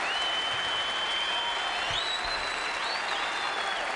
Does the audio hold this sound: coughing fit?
no